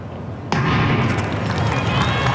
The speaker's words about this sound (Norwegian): Går på startskuddet her også.